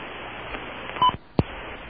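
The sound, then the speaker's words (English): A telephone line connects on a call to China: a short dialing tone burst over a steady line hiss, then a sharp click, with no voices. “Well, that is the sound of a line to China.”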